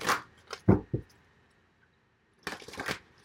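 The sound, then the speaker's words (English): Tarot cards being shuffled and drawn from a deck, heard as two bursts of crisp papery flicks and riffles separated by a quiet pause, fairly faint and with no talking. “I'm going to draw one card from the chakra reading deck, and then three cards from the Witch's Tarot”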